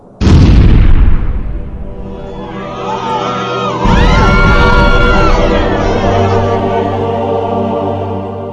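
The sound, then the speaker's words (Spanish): A tanker truck overloaded with cargo explodes on a road beside a campsite in one loud, deep boom, followed by a long, sustained roar with wavering high tones layered above it. “Era la explosión. La explosión de su cisterna. Estaba cargado con muchas más toneladas de lo que debiera.”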